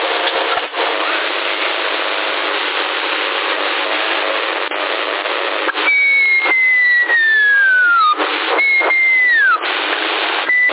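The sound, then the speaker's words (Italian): Whistling sent over a CB radio channel in Sassari in place of speech: steady radio hiss and hum, then two long whistled tones that slide downward, heard through narrow, crackly radio audio with no voices. “Avanti, chi sta frusciando? Fischiano e non parlano.”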